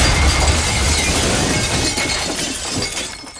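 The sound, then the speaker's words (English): A flaming motor crashes onto a buffet table and crushes it, giving a loud, dense wash of breaking and shattering noise that holds for several seconds and eases slightly toward the end. “The flaming motor falls on the buffet table, crushing it.”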